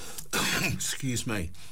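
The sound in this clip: Someone clears their throat and coughs in a few harsh, rasping, voiced bursts, loud and separated by brief pauses.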